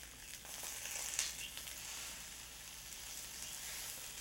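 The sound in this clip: Halved tomatoes sear cut side down in a hot pan with a faint, steady sizzle that holds at an even level throughout, with no voices.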